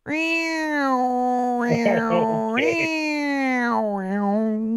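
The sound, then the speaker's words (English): A human voice imitates a cat's long, singing meow: one sustained, loud, tonal cry with wavering inflections and a few swooping bends in pitch. “okay, it's a longer meow. Yeah, there's no really meow quality to it. It's a and it's got all these weird inflections to it. It's very different. It's as though the cat is singing,”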